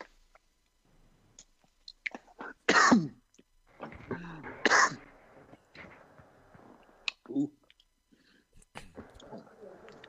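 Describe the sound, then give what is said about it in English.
Throat clearing and coughing from someone with something stuck in their throat: two loud, harsh coughing bursts among quieter throat and mouth noises, with brief voices nearby. “I got something stuck in my throat.”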